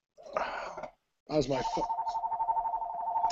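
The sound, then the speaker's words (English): A telephone rings with a steady, high electronic tone that pulses in a rapid, regular warble and continues to the end. A short voice is heard just before the ringing starts. “my phone keeps ringing. Somebody really wants to talk to me.”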